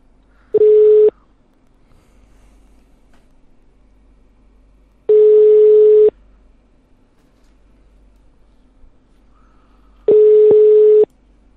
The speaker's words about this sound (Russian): Так, нет, еще раз наберу, почему-то один гудок и сброс.